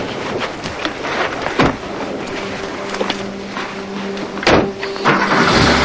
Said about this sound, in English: She opens the car door and the kids climb in.